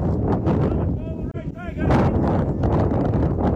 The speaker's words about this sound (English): I'm sure he can probably pick up the wind through my microphone as wind starts to pick up here in Clarion.